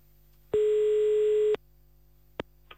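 A telephone tone sounds as a call is placed: one steady, loud electronic tone lasting about a second, then silence broken by two brief faint clicks.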